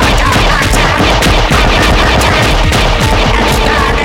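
Loud automatic gunfire in a battle at a refueling station as attackers breach an outer wall: rapid, overlapping bursts of shots crackle without pause for about four seconds.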